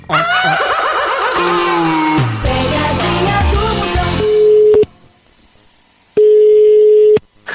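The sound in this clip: Telephone ringback tones, a steady mid-pitched electronic beep sounding twice with a silent gap between, following several seconds of loud, dense tonal sound.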